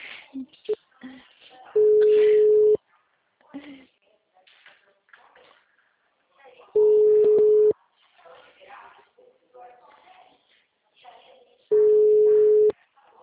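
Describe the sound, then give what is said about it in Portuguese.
Three long, steady mid-pitched beeps of a phone line tone after a dropped call, evenly spaced, with a person talking in the gaps between them. “A gente estava conversando, mas a chamada caiu.”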